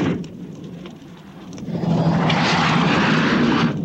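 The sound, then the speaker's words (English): A helicopter circles a plane over sand, its engine first a low rumble that swells to a broad, louder roar midway and then holds steady. No voices are heard. “the two men flatten onto the sand as the chopper circles the plane.”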